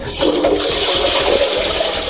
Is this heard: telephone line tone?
no